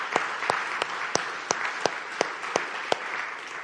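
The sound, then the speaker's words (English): Audience applause for a speaker, a dense wash of clapping with a steady run of sharper, evenly spaced claps cutting through, loud and continuous with no talk. “Yeah, we should give her a hand for sure.”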